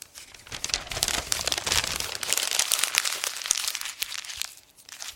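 A sheet of paper covered in writing is crumpled in a clenched fist, producing dense, continuous crackling and crinkling for several seconds that eases off near the end.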